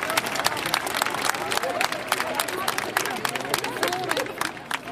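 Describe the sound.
A crowd at a gathering breaks into applause. Many hands clap in a dense, steady patter, with murmuring voices mixed in throughout.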